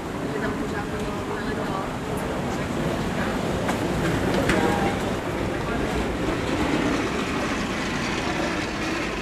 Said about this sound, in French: Vous entendez un son international, les valises avec des roulettes.